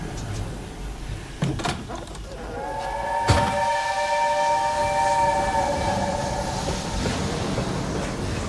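A passenger train rumbles along with a low, steady roar. A sharp clank leads into a sustained, layered metallic whine that holds for several seconds before fading into continued rolling noise.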